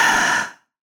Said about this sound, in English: take another moment to inhale and exhale.